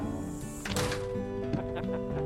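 Screen door swinging shut, with a squeaky, tonal creak running throughout and a single dull thunk about a third of the way in.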